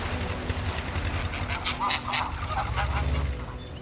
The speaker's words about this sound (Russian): Гуси прилетели домой.